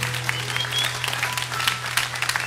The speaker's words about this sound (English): Lord, a hand clap of praise.